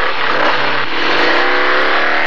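A motorbike engine revs hard, a loud, steady, buzzing roar that holds at high revs for the whole stretch.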